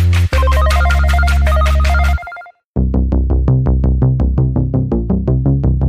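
An incoming call rings a phone with a loud electronic ringtone: a sustained, chiming melodic phrase, a brief silence, then a rapid run of repeated bright tonal beeps.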